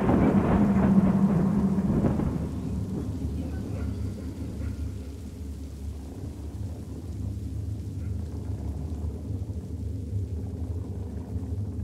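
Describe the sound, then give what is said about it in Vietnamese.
Steady rain falling outside, a continuous even hiss with a low rumbling undertone, a little stronger in the first two seconds and then constant. “Bên ngoài cơn mưa vẫn rả rích.”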